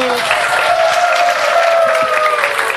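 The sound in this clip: Audience applause fills the whole stretch, a dense, steady wash of many hands clapping that holds at an even, fairly loud level from start to finish after a performance.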